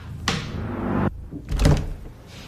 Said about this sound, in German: mit dem sie die Tür öffnet und geht zügig durch die Drehtür rein in den Glaskasten.